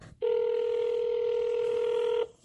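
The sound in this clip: A telephone ringing tone sounds on the line as a call is placed to New Brunswick: one steady, even ring of about two seconds that starts and stops abruptly.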